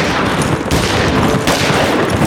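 Heavy gunfire in a shootout where pursuers bring down a rider's horse: a loud, dense barrage of overlapping shots that never lets up across the whole stretch.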